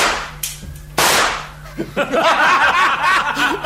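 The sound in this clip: A rifle gunshot rings out as one sharp, loud crack, with a smaller snap just before it. The crack decays quickly, and then voices follow, with what sounds like chuckling.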